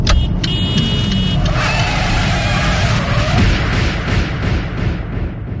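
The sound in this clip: A car brakes hard and skids to a sudden stop on the road: a loud, steady rush of road and tyre noise with a thin squealing tone rising through the middle, ending without a clear impact.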